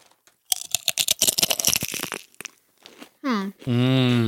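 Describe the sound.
Crisp crunching of salt and vinegar dill pickle chips being bitten and chewed: many rapid, sharp crunches in a dense burst, then a pause and two short voiced sounds near the end.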